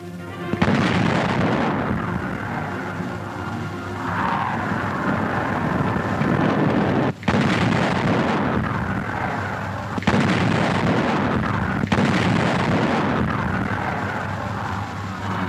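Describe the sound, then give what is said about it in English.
Heavy booming blasts from a wheeled field artillery gun that fires a 200-pound shell. A few loud, sharp reports cut through a dense, continuous low rumble. “It fires a 200-pound shell and has a range of nearly 14 kilometers.”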